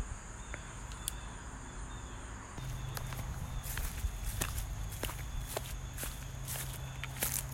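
Footsteps walk along an old, overgrown path in a steady run of many crunching steps that grow a little louder partway through, with no talk.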